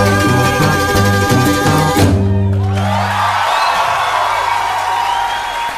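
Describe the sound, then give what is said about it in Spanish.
Loud crowd applause and cheering burst in as a song cuts off, then a roaring, steady wash of clapping and whoops carries on to the end. “Y se escucha el estruendoso aplauso por una emisión más de La Hora de la Meme.”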